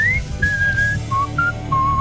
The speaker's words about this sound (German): Du kannst toll pfeifen. Ja, ich soll ich das mal vormachen?